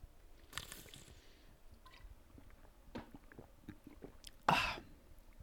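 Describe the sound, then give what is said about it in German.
Someone quietly sips a pink drink, making soft wet mouth and liquid sounds with a few small clicks and one sharper, louder swallow-like burst near the end. “ich gebe mir mal einen Schluck von meinem Pink Essentials.”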